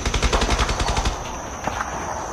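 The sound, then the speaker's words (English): Distant gunfire near a village: rapid, rhythmic bursts of automatic fire at first, then a steadier noisy rumble with a thin high tone running through it. “Where do you think the firing's at? I'd say a bit west of the village, Brother Mark, maybe by the river.”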